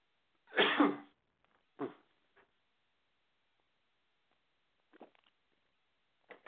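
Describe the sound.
A sharp, loud cough opens, followed by a few fainter coughs and throat-clearing noises spaced out with quiet gaps between them. No one speaks.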